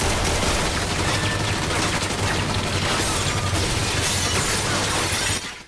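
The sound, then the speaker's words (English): Rapid gunfire fills a shootout between a SWAT team and two fighters in a stone-walled vault corridor, a dense, loud, unbroken barrage of overlapping shots that cuts off abruptly at the very end. “Maxine shoots the guy down.”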